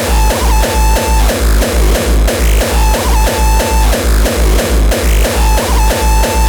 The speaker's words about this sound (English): Does your drum machine sound like this? You need it to sound like this.